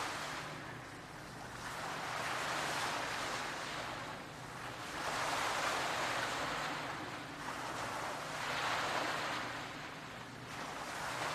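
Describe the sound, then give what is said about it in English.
Ocean waves surge and recede in a slow, steady rhythm, each swell of rushing surf building and easing over a few seconds beneath a continuous low roar, with no voices present. “See if you can go beyond the sounds of the waves.”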